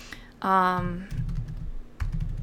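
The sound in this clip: Typing notes on a computer keyboard: quick bursts of soft key clicks come in two short runs, after a brief hummed vocal sound.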